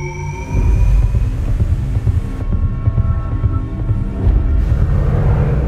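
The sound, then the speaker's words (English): Shepard tone used in a film score: faint rising tones at the start give way to a dense, loud, low throbbing drone that pulses steadily to the end, with no voices. “What you're hearing now was a Shepard tone used in the score to the movie Dunkirk.”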